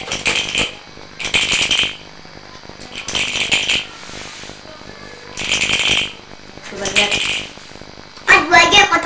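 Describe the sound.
Dice rattled and shaken for a board game in which a six is needed to bring a piece onto the board, heard as several bursts of bright clattering, each lasting under a second, separated by gaps, with voices talking alongside.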